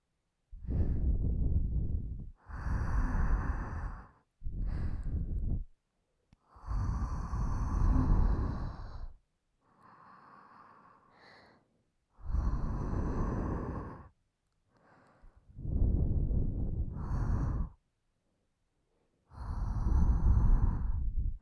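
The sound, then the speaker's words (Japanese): Heavy breathing, a series of long, loud, hissing breaths separated by short pauses, with a few softer breaths between them. The breaths come at an even, labored pace and are heard alone. “君、なんか呼吸が荒いね。”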